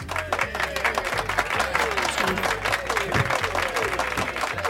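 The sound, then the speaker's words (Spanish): Children applauding at a school: dense, fast clapping that stays loud and even throughout, with some voices mixed into the clatter. “Ya, callaros, no aplaudáis más, hombre, ya valió”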